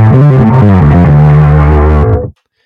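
Electric bass played on its precision pickup through effects pedals, a loud, thick, slightly distorted tone moving through a few low sustained notes before cutting off abruptly into silence.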